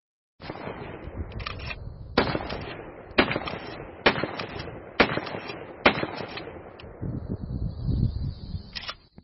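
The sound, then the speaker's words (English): A Remington 870 police shotgun fires a series of sharp, loud blasts about a second apart, each followed by a rumbling decay. “That was the Remington 870 police shotgun.”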